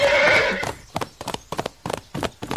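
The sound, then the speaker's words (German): A horse gives a loud whinny at the start, then quick clip-clop hoofbeats follow as horses gallop in a race, an uneven, rapid run of sharp hoof strikes. “Los, Galopp, um die Wette.”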